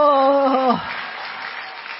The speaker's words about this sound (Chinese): 我们一起鼓掌欢迎 Face 好不好？